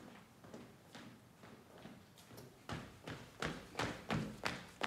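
Hurried footsteps cross a factory floor: many quick, regular thuds in a steady rhythm that grow noticeably louder over the second half, with no voices.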